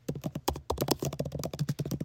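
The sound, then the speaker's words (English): A lip gloss dragged over a computer keyboard, giving many quick, crisp key clicks and taps in an uneven, rapid rhythm, with no talking. “Over the keyboard. Just dragging my lip gloss over the keyboard.”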